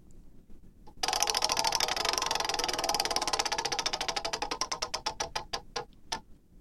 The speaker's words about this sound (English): All right, let's spin the wheel again.